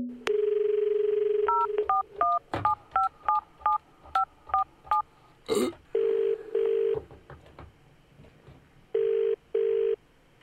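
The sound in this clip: Telephone number being dialed: a steady dial tone, then a brisk run of keypad beeps, a sharp click, and paired ringing tones with a pause between them.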